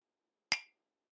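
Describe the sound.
A single sharp clink of glasses touched together in a toast, brief and bright, ringing out quickly into silence.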